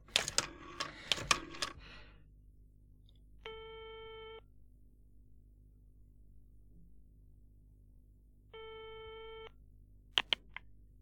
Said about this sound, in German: Ich telefoniere. Ich wähle Ihre Nummer.